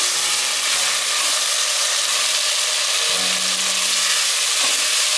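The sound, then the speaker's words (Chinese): Stir-frying tomato, carrot and black fungus in a pan for a vegan Taiwanese hot and sour soup gives a loud, steady sizzling hiss with faint low tones beneath, unbroken throughout. “大 约炒了三分钟左右，放入黑木耳，”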